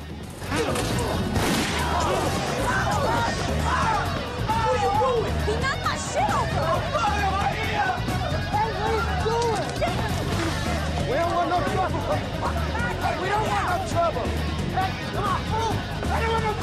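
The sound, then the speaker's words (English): Men brawl inside a shop and crash into shelves, with repeated smashes and thuds over continuous shouting and crowd babble. “Alex and Sean continue to fight the bald guy, crashing into shelves.”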